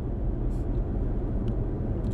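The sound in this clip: Steady low road rumble and engine drone from inside a car moving in traffic, continuous and even throughout, with no voices.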